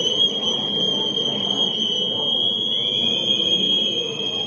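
Whistles blown by protesters at a street rally: a sustained, shrill, steady tone that holds throughout over a rough bed of crowd noise.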